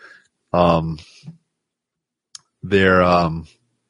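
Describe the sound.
A single computer mouse click, a sharp brief tick between two stretches of voice, made while working with a circuit board file.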